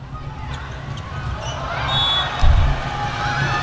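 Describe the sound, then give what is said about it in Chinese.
A volleyball serve during a professional match involving the Shanghai team: one sharp ball strike about two-thirds of the way through stands out above a steady wash of arena crowd noise. “张子萱继续来发球”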